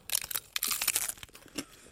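Crisp crunching from a bite into a taco shell filled with strawberries and quark and topped with a pretzel stick: a few short, faint crackling bursts with brief pauses, no voices.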